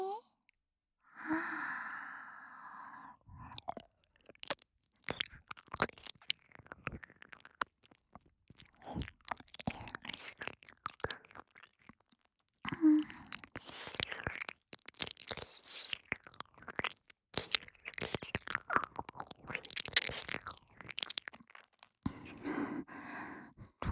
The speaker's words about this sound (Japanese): お兄さんのお耳、舐めさせていただきますわね。